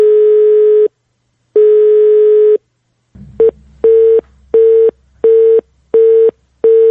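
Telephone call tones from an unanswered call: two long, steady ringing tones, then a loud busy signal of short, evenly spaced beeps over a low hum, with no voices.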